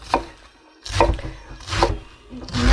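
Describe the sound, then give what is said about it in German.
Knife chopping a medium head of iceberg lettuce for a salad, cut not too fine: a few crisp, crunchy strokes in a slow, steady rhythm, with no talking. “nicht zu fein schneiden. Der Salat selber, da ist nicht viel Arbeit.”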